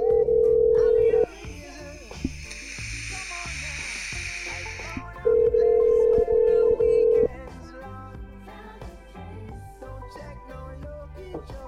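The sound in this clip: A telephone call ringing through to a Comcast line: loud, steady ringback tones sound in two separate spells with a long pause between them.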